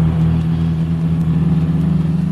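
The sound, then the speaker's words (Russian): Engine drone of a large American car racing along a bad road: a loud, steady, low hum with a faint rhythmic pulsing that holds even throughout. “По скверной дороге на бешеной скорости промчалась большая американская машина, обдав нас пылью.”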